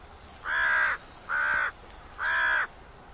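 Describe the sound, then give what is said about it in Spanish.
A crow caws three times. Each hoarse, nasal call lasts about half a second and they are evenly spaced, loud and alone against a quiet background. “Este cuervo sabe el motivo desde hace tiempo.”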